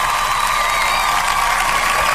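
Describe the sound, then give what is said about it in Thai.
Audience applause at a live evening giveaway event, a dense, unbroken wash of clapping that stays evenly loud through the whole brief stretch. “เอาปรบมือกับพ่อหมูด้วยนะครับ”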